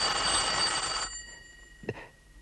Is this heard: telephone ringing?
yes

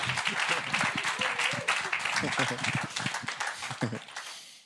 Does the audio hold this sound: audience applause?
yes

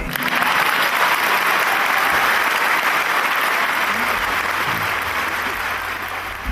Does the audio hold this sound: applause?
yes

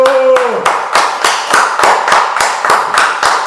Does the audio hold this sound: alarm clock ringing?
no

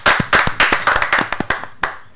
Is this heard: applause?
yes

